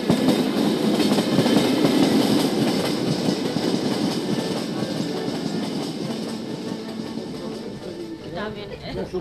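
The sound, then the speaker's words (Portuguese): A passenger train runs on the rails of the Beira Baixa line through mountain country with a dense rumble and clickety-clack of wheels. The noise eases slightly toward the end, and talk runs over it. “deixamos as paisagens serranas da estrela, vamos pela linha da Beira Baixa.”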